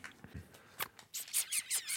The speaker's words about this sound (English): unwrapping my present here